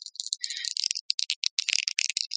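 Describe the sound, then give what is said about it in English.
Dice rattle and clatter as they are rolled for attack rolls in a tabletop roleplaying game. The rapid run of many sharp, bright clicks and taps lasts a couple of seconds, faint, with no talk. “What you can do is roll your dice.”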